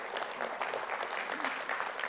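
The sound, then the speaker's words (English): A church audience applauds: brief, steady clapping from a crowd, soft and even throughout. “And you should be clapping right now because that's really exciting.”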